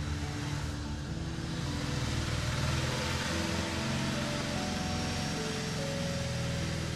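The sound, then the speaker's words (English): A passing vehicle gives off a steady, low engine drone with slowly drifting tonal hum, holding an even level without a clear swell throughout. “Thanks a lot, random vehicle. Now they can totally hear me, if they couldn't before.”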